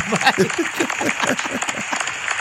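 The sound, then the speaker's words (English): Applause sound effect, thin and steady for a couple of seconds, with vocal cheers or whoops running through the clapping. “that's the weak applause.”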